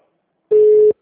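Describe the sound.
A single short telephone line tone during a call transfer, one loud, steady mid-pitched beep of about half a second, alone in silence.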